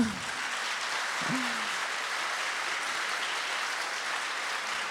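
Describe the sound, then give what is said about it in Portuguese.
A church audience applauds at the church's anniversary service, a dense, steady wash of clapping that carries on evenly throughout, with no voices standing out. “Você pode dar uma salva de palmas para o Senhor?”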